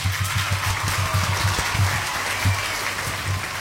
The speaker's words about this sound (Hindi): बिल्कुल सही बोला है, तो तालियां बजेंगी